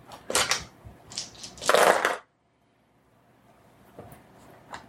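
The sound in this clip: A handful of nine dice is rolled in a quick burst of clattering rattles and knocks that lasts about two seconds, then falls to near silence with a few faint ticks.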